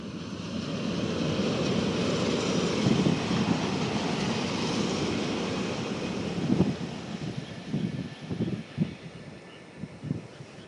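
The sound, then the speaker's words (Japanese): A Shinkansen bullet train passes on the viaduct overhead: a sustained broad roar that holds steady, then thins out into scattered low thumps and rumbles as it fades toward the end. “いつもの新幹線の高架下からお送りしました。”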